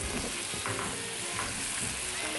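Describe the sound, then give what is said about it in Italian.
Ingredients sautéing in a pan with a splash of grape must: a steady, dense sizzle and crackle with occasional stirring scrapes, loud and continuous throughout, with no talking. “Facciamo soffriggere tutto e insaporire, poi dopo aggiungeremo del vino bianco.”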